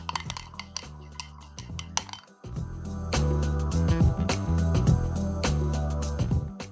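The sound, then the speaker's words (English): Clinking of a spoon against a cup while stirring a homemade pumpkin spice latte with nutmeg and pumpkin. Several bright, sharp metallic and glassy clinks come in an irregular rhythm. “making my very own pumpkin spice latte. And I've got some nutmeg. Going to add in the pumpkin and then stir.”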